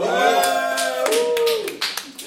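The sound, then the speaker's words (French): Live audience clapping and cheering at a French recording session, with a dense patter of claps and excited voices mixed throughout, staying loud and steady before thinning toward the end. “Là, sa première année qu'on le fait devant public. Euh, public en délire, d'ailleurs.”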